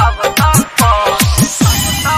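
Mobile phone ringtone signals an incoming call: a loud electronic melody of repeating short phrases with a bouncing low pattern beneath brighter tones, playing alone without talk.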